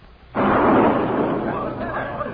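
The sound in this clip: Cannon fire from a pirate ship attacking a vessel in a town harbour: a sudden loud boom that rolls into a long, sustained roar of rumbling noise.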